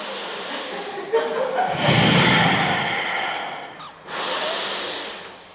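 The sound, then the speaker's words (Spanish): A group of people breathing in together, two long, loud, airy breaths that swell and fade, separated by a brief dip. “Por favor, vamos a respirar aquí todas juntas.”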